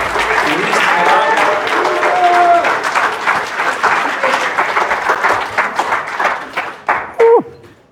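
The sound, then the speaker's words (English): Audience applause from a church audience welcoming people home, a dense, loud, steady wash of clapping that thins into scattered claps near the end, with a brief voice sounding at the close. “One more time, put your hands together.”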